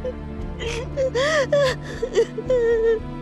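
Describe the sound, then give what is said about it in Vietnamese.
Heartbroken sobbing and whimpering of grieving people mourning a death, with several wavering, wailing cries whose pitch swells up and falls away in uneven bursts over a steady low backdrop. “Tiếng khóc xé lòng của họ làm linh hồn Kha quyến luyến không thể đi.”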